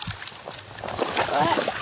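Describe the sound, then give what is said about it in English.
Water sloshes and splashes as ecologists wade into a wetland on South Australia's River Murray, soft irregular swishes that grow fuller in the second half, heard under a speaking voice. “These ecologists are about to wade into a wetland that will take them back in time to when the clear waters were rich with thriving aquatic plants and native wildlife”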